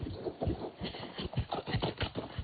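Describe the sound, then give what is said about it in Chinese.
Horse hooves beat on grassland as a beginner rides, a steady run of many low, muffled thuds in an even rhythm with no voices over them. “没有想到一个骑马小白零基础也能体验这么刺激的项目”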